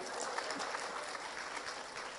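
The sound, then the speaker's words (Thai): Audience applause during a talk: a quiet, even patter of many hands clapping that holds steady for the whole clip. “ไม่ปรบมือหน่อยนะฮะ”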